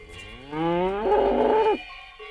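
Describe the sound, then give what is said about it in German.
Cattle mooing in farm country on a summer evening: one long, loud, low moo that climbs in pitch partway through, followed by a shorter, fainter call. “Kühe, das auch noch.”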